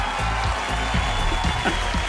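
Applause played as a radio show bumper, a steady clatter of clapping laid over low sustained tones, with a few sharper claps standing out along the way.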